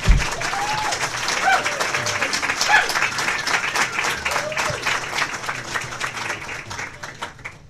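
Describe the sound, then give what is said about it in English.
Audience at a political debate clapping and whooping as the candidates are invited to their podiums, a loud, steady wash of applause with a few hoots that eases slightly toward the end. “cheering, hooting, etc. during the debate itself. But you can do that now as we invite the candidates to the podiums.”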